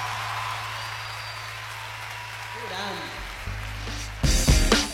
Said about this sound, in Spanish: vamos, un aplauso para el trío. Fuerte el aplauso.